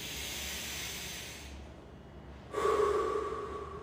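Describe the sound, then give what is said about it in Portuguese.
Deep, forceful breathing in and out gives a soft, hissing rush of air, fading briefly before a louder, slightly rasping breath follows, quiet overall and without talk. “você vai inspirar e respirar mais forte agora. Segura, solta, mais uma vez.”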